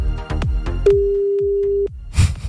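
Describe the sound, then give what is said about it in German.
A telephone ringback tone plays while someone calls a friend: a single steady, mid-pitched tone lasting about a second, with other brief faint sounds before and after it. “Pass auf, sollen wir den anrufen? Natürlich.”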